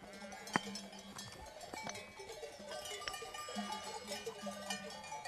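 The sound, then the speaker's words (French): Bells clank from a large flock of 600 to 700 sheep, a faint, continuous, irregular jingling and clattering with a few bleats mixed in. “Vous voyez le troupeau qui est là ? Je vous ai dit qu'il y avait entre 600 et 700 bêtes.”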